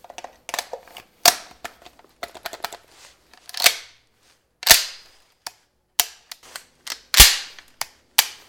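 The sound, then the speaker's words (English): Gunshots heard as many sharp, crisp cracks and pops, some clustered rapidly and others spaced apart, with louder bangs standing out among quieter snaps and silence between them. “What was that? It was a gun!”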